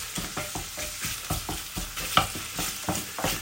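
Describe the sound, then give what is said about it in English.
Stirring of paprika into onion and chilli frying in a pan for a bacon dish: many rhythmic scraping strokes of moderate loudness over a steady sizzle, with no talk. “Mixing up with the onion and the chilli nicely there.”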